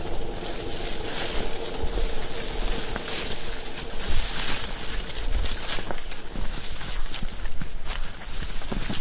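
Footsteps walk through dense undergrowth, making continuous rustling and crunching of leaves and stems. The sound stays at a steady, fairly loud level throughout.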